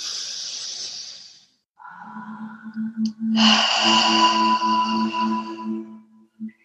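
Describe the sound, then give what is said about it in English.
A deep breath is drawn in during a guided breathing exercise, a soft airy hiss lasting under two seconds, then other tonal sounds follow. “Again, inhale. Exhale. One more time, inhale.”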